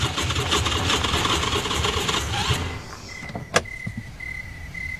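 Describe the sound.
An out-of-gas car engine cranks without catching: a rapid, churning grind pulses steadily for about two and a half seconds, then cuts off, leaving a thin steady high tone and a sharp click.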